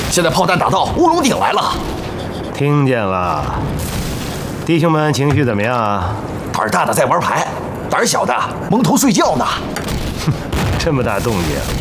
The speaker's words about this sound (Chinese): 报爷，解放军刚才炮击南天门，现在炮弹打到乌龙顶来了。